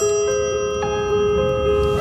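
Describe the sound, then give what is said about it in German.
An old telephone ringing in a London flat in 1927, a loud, sustained metallic bell tone with steady, shimmering overtones that continue unbroken throughout. “Colin! Das Telefon klingelt.”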